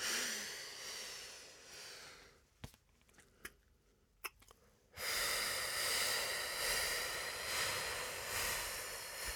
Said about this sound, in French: Donc, inspiration en 4, 2 temps de pause, expiration d'abord en 6.